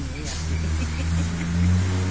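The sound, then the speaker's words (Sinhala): A tractor and a bus driving past, their engines forming a loud, steady, low droning rumble that continues throughout without a break. “ඈ tractor එකකුත් ගියා bus එකකුත් ගියා තව මොකද්ද සද්දේ හෙන්නේ”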